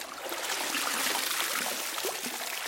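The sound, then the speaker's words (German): Water splashing and trickling as someone climbs out of a bathtub, a continuous, hissing slosh with no pauses. “Und ich empfehle mich jetzt aus der Wanne und gehe ans Klavier.”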